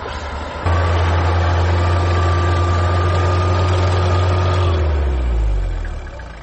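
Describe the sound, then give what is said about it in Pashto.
Engines idle in vehicles stuck on a blocked road: a loud, steady low hum that holds for several seconds, then sinks in pitch and fades toward the end. “زه همدا اوس د یادې لارې په اوږدو کې د تناوچي سیمې ته راورسېدم چیرې چې موټر بند دي.”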